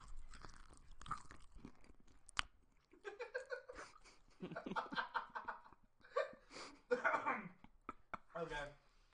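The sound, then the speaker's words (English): Chewing of pie held close to a microphone, with wet crunchy bites and mouth sounds mixed among talking and bursts of laughter. “You're still eating your second pie. Does that mean we have to keep going? Yeah. I'm going to sit here and wait. Go ahead, ASMR into that microphone.”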